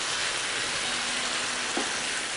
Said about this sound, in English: All right, we're gonna add the okra in. And we're just sauteing that too.